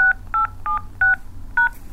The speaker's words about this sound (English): Please enter your password.